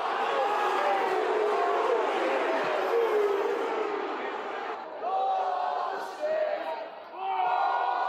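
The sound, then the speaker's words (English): A football crowd chants abuse at an umpire, with many voices shouting together in loud bursts. The chant breaks off briefly a few times before resuming. “That's the sound of some umpire abuse. And obviously in reality, the chants are often a lot worse than bullshit.”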